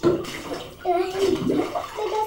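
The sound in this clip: Bathwater sloshes and splashes as a child washes their hair in the tub, and a child's voice talks over the watery movement.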